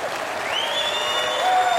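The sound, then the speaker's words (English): Audience applause at a stand-up comedy show, a dense, steady wash of clapping that holds throughout and grows slightly louder toward the end. “I don't know what you're applauding for.”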